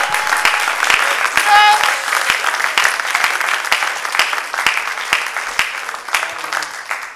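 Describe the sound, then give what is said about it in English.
An audience claps their hands in praise during a morning church service, producing a dense, steady wash of many overlapping claps that stays loud throughout. “If you believe that, put your hands together and magnify the Lord. Come on, give him praise for about 30 seconds in this place.”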